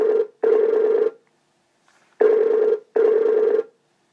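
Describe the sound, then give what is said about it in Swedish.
Telephone ringing unanswered in a repeating double-ring pattern: two steady buzzing rings, then a silent pause, then another pair of rings. The first ring is partly cut off at the start. “Det verkar inte som att Alice har tänkt att svara mig idag.”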